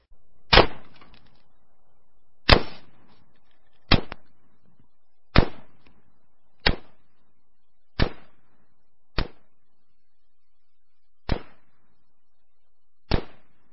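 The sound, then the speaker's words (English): Nine sharp gunshots from a Colt LE6920 semi-automatic rifle, each a loud crack with a short decaying tail. The shots come at fairly even intervals, with a longer pause before the last two, and no voices. “That was the Colt LE6920 semi-auto.”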